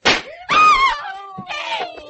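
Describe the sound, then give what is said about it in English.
Gunshots fired during an attempt on a senator's life: a few sharp, loud cracking bursts, with ringing tonal traces trailing between and after them. “You've killed him. What happened? He shot him.”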